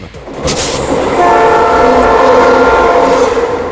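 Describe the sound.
A train locomotive horn sounds in a loud, sustained, chord-like blast over rumbling rail noise. It swells louder after the first second and holds steady to the end.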